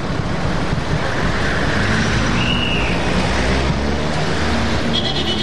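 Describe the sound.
Road traffic at a signal, with cars waiting: a dense, steady wash of engine rumble and road noise fills the whole stretch at an even, loud level, with no breaks.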